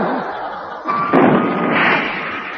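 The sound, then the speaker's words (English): Rocket exploding inside the shaft of a shooting stick: a sudden bang cuts through a broad, noisy rush and leaves a crackling wash that lingers. “Somebody secreted a rocket in the shaft of his shooting stick.”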